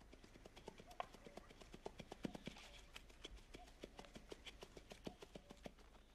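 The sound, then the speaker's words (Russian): Hoofbeats of a bay horse wearing a bridle and no saddle as it runs loose around a forest clearing: a quiet, fast, regular run of many thudding steps. “Из-за деревьев выбегает гнедая лошадь с уздечкой, без седла. Делает круг по поляне.”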